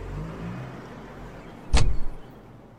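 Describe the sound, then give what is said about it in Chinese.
A car door opening as someone climbs out to get luggage from the trunk: a single sharp clunk, then a brief rattle, over a low, steady background rumble. “谭燕西伸手去拉开车门，下了车，自己绕去后方开了后备箱拿行李”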